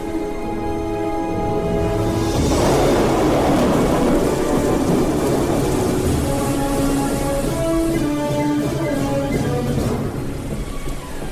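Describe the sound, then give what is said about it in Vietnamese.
Thunder rolls through steady, heavy rain during a storm, a dense, loud downpour that swells in rumbling surges near the start and again near the end. “Chiều đến, mây đen phủ kín bầu trời, sấm sét nổi lên.”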